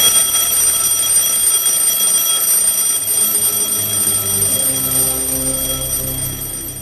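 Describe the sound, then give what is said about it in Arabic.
An alarm clock rings with a steady, continuous electronic tone made of several high pitched layers, fairly loud throughout and fading slightly near the end, with no voices. “وسمعت صوت المنبه”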